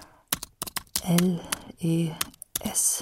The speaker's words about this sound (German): Zu Hause tippe ich ein.